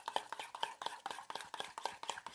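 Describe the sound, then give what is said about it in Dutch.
A mixture being stirred together makes many quick, regular scraping strokes in an even rhythm, each a short, bright tap, continuing steadily throughout. “Dit roer ik door elkaar.”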